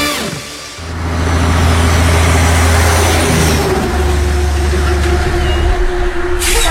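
A heavy truck engine revved hard by a highway hauler, a deep, loud rumble that swells up from a quieter start and then holds as a steady, powerful low drone.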